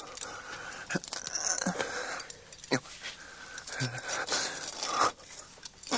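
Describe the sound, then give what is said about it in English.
A blade scrapes and slashes through filthy spider webs to cut free a person bound up in them. A few rough, uneven cutting strokes and rasps stand out against a low background. “She's bound him round with filthy webs. I'll cut him away.”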